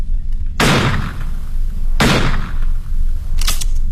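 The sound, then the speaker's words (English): Three loud revolver shots are fired into the sky, evenly spaced about a second and a half apart, each a sharp booming crack with a short rough tail. “Raise your revolver to the sky, Mr. Holmes. Empty it.”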